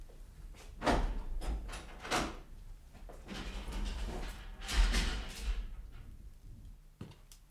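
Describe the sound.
Metallic clatter and scraping of a prison cell door being unlocked and opened: a series of faint bangs and rattles, with a longer scraping stretch in the middle.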